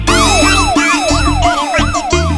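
Loud wailing siren of a car with a red beacon light, sweeping up and down in rapid repeated cycles without a break, strong and steady throughout.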